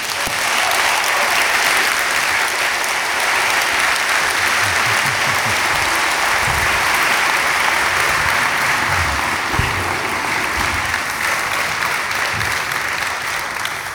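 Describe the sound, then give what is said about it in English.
A church audience applauds to welcome a former Hope College chaplain back to the pulpit. The clapping is steady and sustained, holding an even level throughout. “My friends, would you please welcome back with me to a pulpit that he loved, our own beloved Jerry Van Heest, former chaplain of Hope College.”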